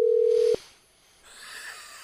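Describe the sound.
A telephone dial tone, a steady, mid-pitched electronic tone that holds for about half a second and cuts off abruptly, leaving faint line noise.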